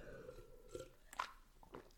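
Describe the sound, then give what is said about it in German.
A quick sip from a drink between stretches of talk: a few faint, brief mouth noises that come and go against a quiet background, with no one speaking. “So, jetzt trinke ich mal kurz einen Schluck, da habe ich mich schon wieder in Rage geredet.”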